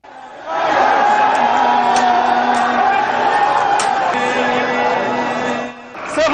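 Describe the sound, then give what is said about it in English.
Loud, dense crowd noise from protesters storming the British embassy and a residential compound in Tehran, with overlapping shouting voices and cheers that hold steady before dropping off near the end. “Here's the sound of from that storming of the embassy and a residential compound in Tehran Tuesday, smashing windows, burning the flag, all to protest new sanctions imposed by London.”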